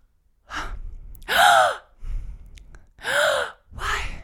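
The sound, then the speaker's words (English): A voice imitates heavy panting, as if struggling to breathe in a hot car: five loud, breathy gasps in an uneven rhythm, separated by short silences, with no words spoken. “we're in line for a few minutes and I'm like panting. Like I can't breathe that well.”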